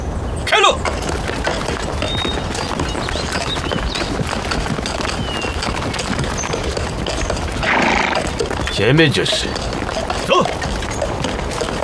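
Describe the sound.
A horse with a damaged horseshoe walks along a road, its hooves clip-clopping in a loose, uneven rhythm under people talking.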